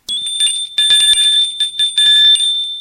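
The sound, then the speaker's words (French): A doorbell rings with a bright, high metallic tone, struck several times in quick succession, each ring lingering into the next. “Gilles a pris son courage à deux mains et décide d'aller rendre visite au grand-père de Charles. Il sonne.”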